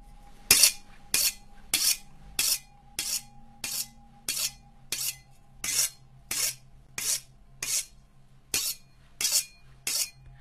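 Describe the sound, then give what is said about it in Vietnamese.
A knife is sharpened against the unglazed bottom of a rice bowl in a long run of regular, evenly spaced rasping strokes. The grating scrapes are harsh and bright, with a faint steady hum beneath them and no voices. “Nó cầm con dao, mài mài vào cái đít bát, phát ra những tiếng ghê rợn.”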